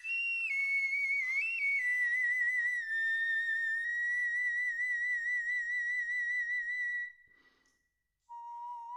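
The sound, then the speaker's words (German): Bone flute playing clear, whistle-like tones: a few shifting high notes give way to a long wavering note, then a short silence and a lower sustained note. “So klingt sie also, die Knochenflöte.”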